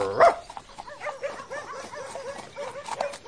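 A farm dog barks and yips, opening with one loud sharp bark, then a run of many quieter, short, high yelps at a quick, uneven pace.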